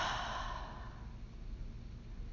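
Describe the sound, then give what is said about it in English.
A clearing breath pushed out after a deep inhale: a soft, airy exhale that is loudest at the start and fades within about a second, leaving a steady low hush. “Full breath in. Clearing breath out.”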